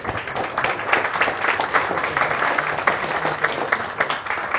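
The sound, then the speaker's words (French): Audience applause welcoming two guests at a public talk on space exploration. Many hands clap in a continuous, moderately loud clatter that holds steady throughout. “que je vous demande de bien vouloir accueillir avec quelques applaudissements, s'il vous plaît.”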